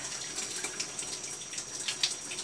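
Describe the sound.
Running water during washing, a faint continuous hiss from a flowing stream with a few small splashes and spatters rising out of it.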